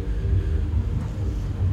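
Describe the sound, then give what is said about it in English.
Wind buffeting a microphone outdoors on a hot, windy day makes a steady, loud low rumble with slight fluttering, without pauses. “Thanks for the wind, you know, because that's good enough.”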